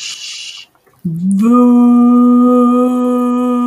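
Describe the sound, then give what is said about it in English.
Low, sustained 'voo' vocal toning in a register below the speaking voice, used as a calming vibration exercise. A short breathy sound comes first, then the hummed tone enters with a slight upward glide and holds a steady pitch to the end. “When I make this vibration, I want to just notice the feeling of the vibration in my chest, in my stomach, and we make it in a low register, so lower than my speaking voice. It sounds like this.”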